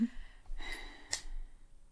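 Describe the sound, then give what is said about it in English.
A person takes a long, deep breath, heard as soft airy breathing that swells and fades. It is faint and stands alone, with no talk. “let me just take a really long breath.”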